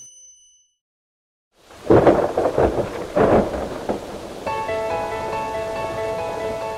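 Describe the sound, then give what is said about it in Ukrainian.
Heavy rain pouring with thunder: after a near-silent start, loud rolling thunder rumbles burst in, then a steady wash of downpour continues, joined later by sustained ringing tones. “Сьогодні знову хлющ. Несподівано, зненацька.”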